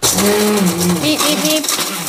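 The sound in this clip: A food processor grinds very old, hard bread rolls into breadcrumbs with a loud, continuous whirring roar, and a voice talks over it.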